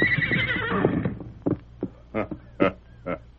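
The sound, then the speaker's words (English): A great white stallion whinnies while being saddled: a long, wavering high neigh opens, followed by five short snorting, nickering bursts spaced out with brief gaps. “a masked man was saddling a great white stallion, while an Indian mounted on a paint looked on. Well, Silver, old fella, how does it seem to feel the saddle again?”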